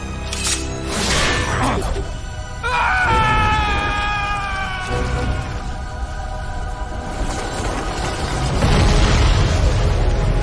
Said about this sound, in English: the whole factory explodes behind them